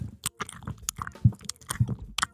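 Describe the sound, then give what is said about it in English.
A person imitates a dog licking and grooming itself at night. The mouth produces irregular wet smacks, clicks and chewing noises, moderately loud and uneven in rhythm. “I'll wake up and I'll hear the dog like licking and grooming itself. It's the nest. It sounds like chewing.”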